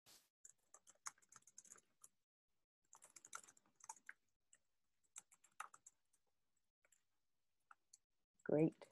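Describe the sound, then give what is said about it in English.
Typing on a computer keyboard: many sharp, light key clicks in irregular bursts and short runs, separated by brief pauses, fairly faint throughout. “It's been a while since I've typed.”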